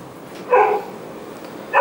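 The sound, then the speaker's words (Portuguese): Dog barks, two short sharp yaps, one near the middle and another right at the end, fairly faint over a quiet background. “O respeito com os animais que estão latindo. O que eles fazem? Eles latem.”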